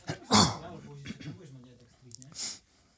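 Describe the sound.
Coughing after choking on something, with a sharp harsh cough at the start and another near the end, and strained voiced sounds between them.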